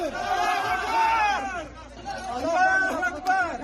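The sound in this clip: A crowd shouts as prisoners are freed from Kabul prisons, with many raised, excited voices overlapping in a brief, agitated burst of shouting and chatter.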